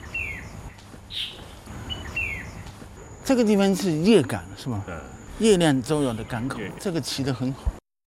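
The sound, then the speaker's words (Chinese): Bird calling at the old Yuegang port by the Jiulong River mouth, a few short descending chirps early on, followed by people talking over the quieter background. “你看，我们来到这里，这个鸟就一直不停地叫。好，我们静下来听一听它。”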